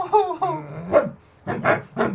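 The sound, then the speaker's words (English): A dog growls at another dog in a few rough, throaty bursts, with bark-like snarls, each burst loud and separated by short pauses. “Brutal stands, a bit unsteady on the feet, turns, looks at Bertie, growls,”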